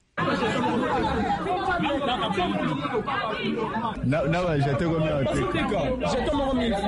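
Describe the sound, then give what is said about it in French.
Dense crowd chatter from students jostling to register first at an enrolment centre in Listandolo, Kinshasa, on a Sunday: many overlapping voices talk and shout loudly and without pause. “Ces bruits ne proviennent pas du marché Gambela, c'est l'ambiance qui a régné ce dimanche au centre d'enrôlement à Listandolo. Les étudiants ont sémé les désordres parce qu'ils voulaient s'enrôler en premier.”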